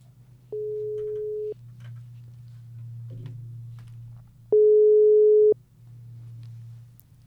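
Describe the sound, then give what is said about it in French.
A telephone ringback tone sounds as a call is placed: two long, steady mid-pitched beeps several seconds apart over a constant low hum. “Mais essayons d'abord d'appeler Alexis.”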